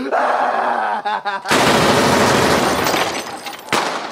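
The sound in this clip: Gunshots erupt in a dense, loud burst of rapid fire after a voice is heard, then a second sharp volley follows moments later.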